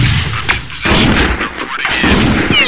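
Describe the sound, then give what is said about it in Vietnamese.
Ship guns fire at enemy aircraft in a loud, dense barrage of booming shots that overlap into a sustained rumble with sharper bursts throughout. “nhằm thẳng tàu vào máy bay địch mà bắn. 1, 2, 3 bắn.”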